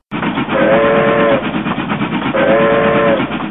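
A train sound effect: a loud passing train rumbles and clatters steadily under two sustained whistle blasts, each lasting about a second, with a short gap between them.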